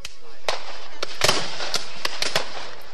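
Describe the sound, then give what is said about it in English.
Gunfire from a 2013 Civil War battle reenactment in Selma: sharp gunshots crack out irregularly, several in quick succession, over a steady low background rumble. “What you're hearing is a 2013 reenactment by Civil War buffs.”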